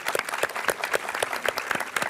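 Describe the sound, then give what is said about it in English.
Applause from a conference audience: many hand claps in a fairly regular, brisk rhythm, steady throughout with no talk over it. “And now let's give everyone in the audience a round of applause for coming here and being part of it.”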